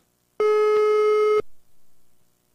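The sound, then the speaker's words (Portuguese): A telephone call tone sounds while a number is dialed: one steady, level beep lasting about a second, clear and alone, followed by faint low noise and near-silence. “Liga então, agora. Vamos, vamos, vamos ligar, vamos ligar.”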